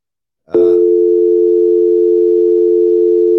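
A landline telephone dial tone starts abruptly after a brief silence and holds as a loud, steady, unbroken hum to the end.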